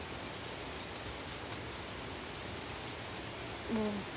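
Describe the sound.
Pouring rain makes a dense, even hiss of countless drops that holds at a steady level from start to finish.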